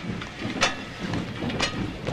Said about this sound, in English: A carriage door opens onto the tracks, and Holmes and Watson climb down onto the pebbled railway line, walking along, heads bowed, as the train pulls out.